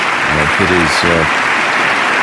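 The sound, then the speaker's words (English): Applause from the House chamber audience during President Obama's State of the Union address, steady dense clapping throughout, with a voice speaking briefly over it. “everyone in the House chamber, I think, has risen, just about everyone, applauding the President's remarks about American servicemen and women and American diplomats”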